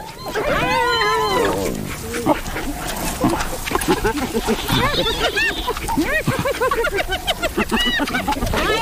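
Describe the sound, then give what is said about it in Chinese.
Spotted hyenas squabble over an impala carcass stolen from African wild dogs, with many loud, overlapping yelps, whoops and giggling calls that keep coming without a break. “但很快被斑鬣狗抢走了。仅仅几分钟，这只高脚羚就被啃食殆尽”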